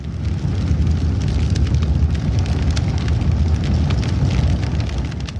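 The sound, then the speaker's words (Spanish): Roaring gas-fed fire in a crematorium furnace, a loud, steady, rumbling roar with a crackling hiss that holds unbroken for the whole stretch. “Y la temperatura sube, mientras el fuego comienza a consumir el cabello, la piel y finalmente los huesos del cuerpo humano.”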